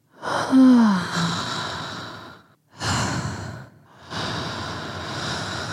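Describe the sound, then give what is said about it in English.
A person breathes deeply to relax, taking three long, slow breaths separated by short pauses, the first carrying a soft voiced sigh and the later ones rushing like airy hiss. “Maybe there's another way. Maybe I just need to breathe.”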